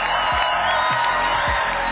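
Audience applause and cheering at the Luxembourg Song Contest, a loud, dense crowd roar of clapping mixed with shouts, sustained without a break.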